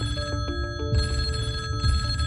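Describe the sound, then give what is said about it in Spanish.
A landline telephone rings in a flat with a steady, trilling electronic ring that pulses in repeated bursts, alone with no voices. “El teléfono fijo de este piso en el que me encuentro ahora mismo con Juan y Luisa no para de sonar durante los meses siguientes a la desaparición.”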